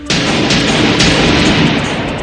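A propane tank explosion in a 1980s film scene: a loud, broad roaring blast that fills the whole clip, with a couple of sharper bursts early on before the rumble slowly eases.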